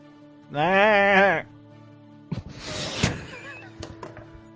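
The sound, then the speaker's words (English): A sheep in a very large cage gives a single wavering, quavering bleat lasting about a second, followed by a run of knocks and clattering thuds. “inside you can see in a very large cage, and within is a sheep.”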